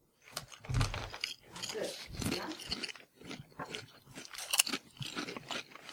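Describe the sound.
Crunching and chewing of a potato-like snack being tasted for the first time, with many irregular crisp bites and softer munching between them.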